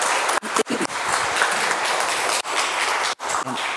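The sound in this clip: An audience applauds to welcome a guest speaker one morning: a steady wash of clapping, broken by a few abrupt, brief dropouts.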